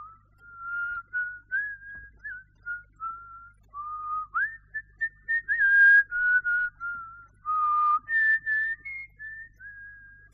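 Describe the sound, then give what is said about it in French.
A man whistles thoughtfully beside a table in a small villa, a slow, wandering melody of clear, mid-pitched phrases with short pauses between them. The whistling is alone over a faint low hum. “Il sifflait, songeur.”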